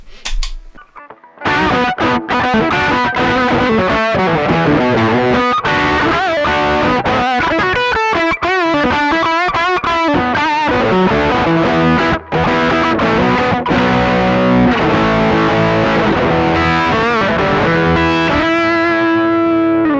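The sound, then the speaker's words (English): An electric guitar with humbuckers plays through an Analog Man Beano Boost treble booster into an unchanged amplifier. After a brief pause it launches into a loud, gritty, distorted riff of chords and single notes that continues steadily to the end. “So I'm not going to change the amplifier at all now. I'm just adding the treble booster. And in this case, I'm using the Analog Man Beano Boost. And this is what that sounds like.”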